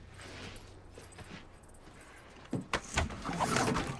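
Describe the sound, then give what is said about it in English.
A panel on an RV is opened and a variety of tubes fall out: a couple of sharp knocks, then a rough, sustained rattling clatter, louder than the quiet rumble before it. “They open up a panel on the RV and a variety of tubes fall out.”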